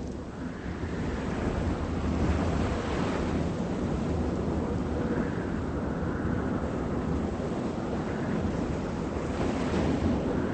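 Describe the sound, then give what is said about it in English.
Fierce wind roars across a beach where someone is fishing, a dense, unbroken rush that stays loud for the whole stretch, with a surf-like wash mixed in and no voices. “Despite a fierce wind, Matt fishes off the beach.”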